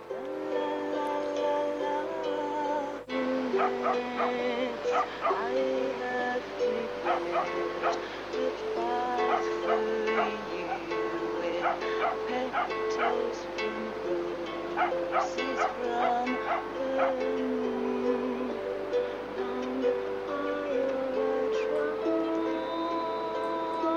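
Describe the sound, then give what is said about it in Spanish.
Dogs bark on a beach: many sharp, repeated barks and a few yips over a steady tonal drone that runs throughout, with no clear talk. “Por eso oímos perros ladrando, está en la playa de San Lorenzo.”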